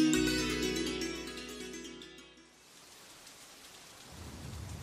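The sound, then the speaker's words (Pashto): Heavy rain: a steady, moderately loud hiss rises and fills the second half after tonal music fades out in the first half. “باران ډیر زیات شو”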